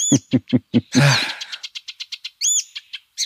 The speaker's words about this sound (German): Ich würde sagen, wir hören ihn nochmal an. Ich habe auch extra schön 20 Sekunden hier, volle Gelbspötter-Power.